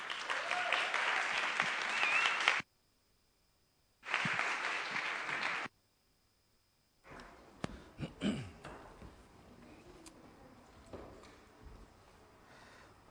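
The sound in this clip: Audience applause welcomes two speakers after a prayer. Two bursts of dense, steady clapping are split by a short silence, followed by softer, scattered clatter.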